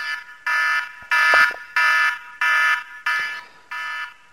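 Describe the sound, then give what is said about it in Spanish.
An alarm sounds to mark the end of a ten-minute turn in a timed debate. It is a loud series of evenly spaced electronic beeps, each about half a second long, repeating alone without talk. “Cuando terminen los 10 minutos, pues sonará la siguiente alarma que voy a poner ahora.”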